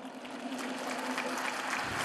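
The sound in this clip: Applause from a crowd greeting Pope Francis: a steady, fairly faint wash of many hands clapping that holds evenly throughout, with a low steady hum underneath.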